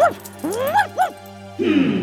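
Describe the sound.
A nervous young dog in a thunderstorm whimpers and yips in a few short, high-pitched sounds that rise and fall in pitch, followed by a rougher, lower sound at the end.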